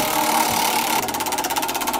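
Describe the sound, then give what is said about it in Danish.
A word generator machine spins in a studio, giving a steady mechanical whirr that turns after about a second into a fast, even, pulsing rattle. “Jamen, ordgeneratoren her i studiet, den står allerede og bimler og bamler. Den er ved at være klar til os.”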